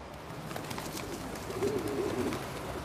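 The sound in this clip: Pigeons in a flock of well-fed city birds give soft, low cooing calls that rise faintly out of a steady background hum.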